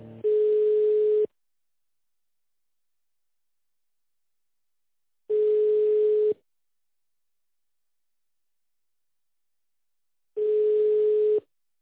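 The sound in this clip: Telephone line tone during a call transfer: three identical steady tones at one mid pitch, each about a second long, separated by long silent gaps in an even repeating pattern.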